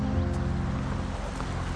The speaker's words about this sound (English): The taxi drives uphill on a residential street.